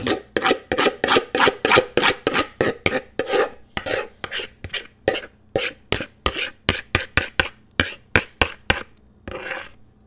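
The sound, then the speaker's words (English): A spoon scrapes pumpkin pie filling from a mixing bowl in many quick rasping strokes, each a short, rough burst in an uneven rhythm that slows toward the end, with no talking. “scraping the mixing bowl to get every last bit of the pumpkin pie”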